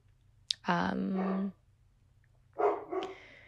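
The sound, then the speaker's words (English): A male dog barks in two drawn-out, tonal bursts separated by a pause of about a second, loud and clear over a steady low hum. “Sorry about the dog. He's really like annoying today.”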